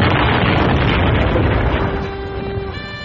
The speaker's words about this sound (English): The blast tore me from my platform soles.